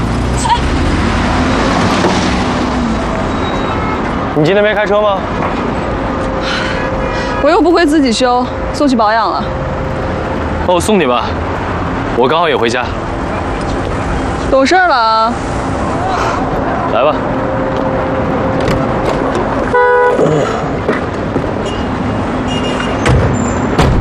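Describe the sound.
Street traffic with passing cars where a taxi is being hailed, a steady road rumble under a few louder vehicle swells, with people talking over it.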